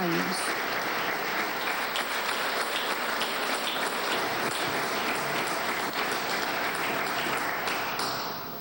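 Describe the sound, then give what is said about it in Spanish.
A crowd applauds a rescue team that came to help the country after earthquakes: dense, continuous clapping that holds steady throughout and tapers slightly at the very end. “Allí el agradecimiento, el aplauso por esta labor que han hecho en nuestro país”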